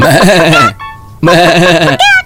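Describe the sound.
Goat bleating, loud and wavering: two long nasal bleats with a quiet gap between them, then a shorter third bleat at the end.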